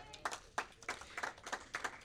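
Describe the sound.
An audience claps faintly, with quick, fairly even claps repeating in a loose rhythm.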